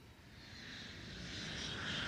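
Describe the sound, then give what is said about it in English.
A private jet rolls down a sunlit landing strip's tarmac, its engines giving a steady, whooshing roar with a high whine that gradually swells louder. “Bright sunlight bathes the landing strip as a private jet rolls down the tarmac.”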